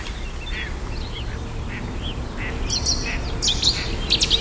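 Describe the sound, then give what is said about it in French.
A great tit sings bright, high, repeated notes in the last second or so. Steady background noise and scattered duck-like quacking calls run underneath. “Mésange charbonnière.”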